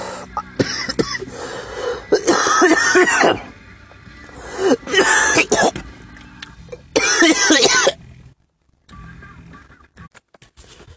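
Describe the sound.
Harsh coughing from smoking a joint: several loud coughing fits separated by quieter gaps, trailing off into near silence at the end.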